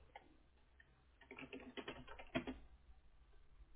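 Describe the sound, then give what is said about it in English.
A name is typed on a computer keyboard as a soft run of quick key clicks, faint and irregular, with a denser burst of keystrokes in the middle. “And then in the orange box, type out your name. And when you're done with that, press confirm signature.”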